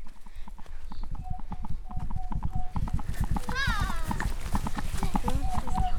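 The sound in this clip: Hooves of a herd of centaurs arriving, heard as a dense, steady clatter of many clopping hoofbeats that continues without break from start to finish.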